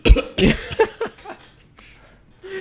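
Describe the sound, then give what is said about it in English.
A voice imitates a toaster coughing up toast, producing a few rough, throaty cough-like bursts in quick succession that trail off into softer breathy sounds. “when the toast pops, he would also like kind of cough it up.”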